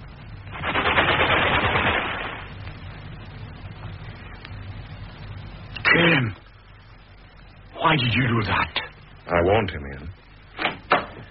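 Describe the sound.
A gunshot in a war film: a loud, sustained burst of noise, then a few shorter, sharp bangs and knocks spaced apart.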